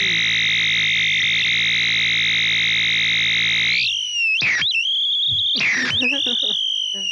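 A Japanese-made oscillating fuzz guitar pedal squeals as its knobs are turned up without the guitar being played. A loud, steady buzzing tone holds, then swoops and warbles in pitch with brief sputtering breaks.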